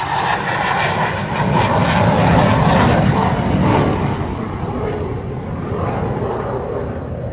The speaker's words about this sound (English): Let me get this big-eyed bird on up off the ground. I rubbed my two little coins together and bought me an airplane.